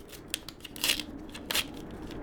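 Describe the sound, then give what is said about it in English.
A greeting card is opened with quiet papery rustling and crinkling: a few short crisp bursts, two of them louder than the rest. “Fine, I'll open your card.”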